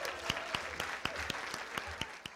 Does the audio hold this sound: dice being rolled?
no